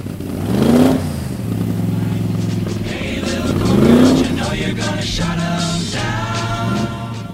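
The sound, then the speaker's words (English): A 1960s Shelby Cobra race car's all-gas engine revs loudly, its harmonic roar climbing in pitch in two distinct surges, with a steady, throbbing rumble between them and a raspy, buzzing tone afterward. “In the nearly 90-year history of races at Le Mans, the winning cars have mainly had all-gas engines that sound like this 1960s Cobra.”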